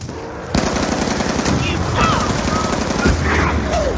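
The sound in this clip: Rapid automatic gunfire in a video game with an insta-kill power-up active. Dense, loud bursts start about half a second in and continue steadily to the end.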